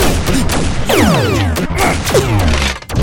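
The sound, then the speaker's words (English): Shooting in a dense, continuous barrage of loud blasts, with sweeping descending whistle-like tones layered through the volley and no clear pause between shots. “Oh, I am definitely gonna shoot you.”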